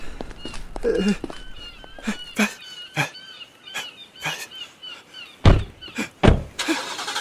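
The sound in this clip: A car drives off. Scattered clicks and thuds, including two louder thumps, lead into a broad, rising engine rush at the very end.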